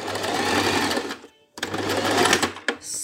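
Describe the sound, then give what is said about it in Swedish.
A sewing machine stitches a seam with a fast, steady mechanical whirr. It stops briefly partway through, then resumes, with a small knock near the end. “Ett ögonblick, jag ska bara sy färdigt en, en söm här.”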